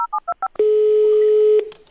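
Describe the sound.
Telephone keypad tones as a number is dialed: four quick, distinct beeps in a steady rhythm, then a loud, steady single tone held for about a second before it cuts off.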